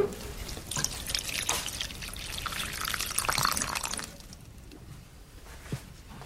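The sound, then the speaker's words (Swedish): Water poured onto a banana plant in a greenhouse: a quiet, uneven trickle and splash with scattered drips, thinning out after about four seconds. “Så jag gick ut i växthuset och vattnade bananen.”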